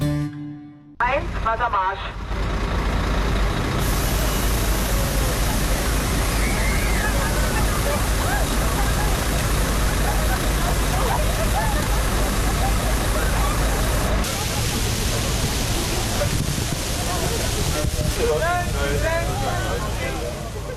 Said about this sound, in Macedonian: Го слушате звукот на полицијата во Берлин, што прска воден топ во толпи што бараат спас од жешката топлина.